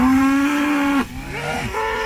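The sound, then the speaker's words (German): Cows that have escaped onto the B111 road near Schmollensee on Usedom moo. One long, low, steady moo breaks off, then a second, quieter bellow follows. “Wegen Kühen auf der Fahrbahn geht bei Schmollensee B111 gerade nichts. Die sind irgendwie ausgebüxt”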